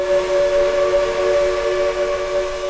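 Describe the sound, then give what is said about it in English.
A steam locomotive whistle on a railroad at Cass, West Virginia, sounds a steady, loud, chord-like tone that holds unbroken for nearly three seconds with no voices. “So when you hear a steam whistle a mile away,”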